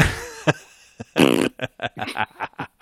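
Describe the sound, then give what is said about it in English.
A fart noise sound effect: a few loud, rasping, sputtering bursts of uneven length, followed by short choppy sounds. “I deserve the fart noise there.”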